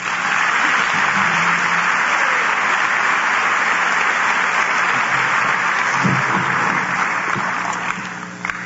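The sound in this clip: Audience applause welcomes a speaker onto the stage at an evening talk, a dense, sustained wash of clapping from many hands that stays steady and loud before thinning out at the very end.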